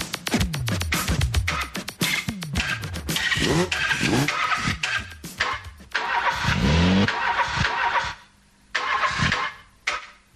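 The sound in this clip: Car engines starting and revving, many loud cranking starts and throttle blips with sweeping pitch, in rapid succession, followed by a brief silence and one more burst.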